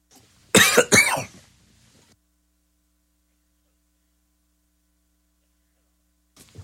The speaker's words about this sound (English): I can usually suppress coughing on air. Excuse me.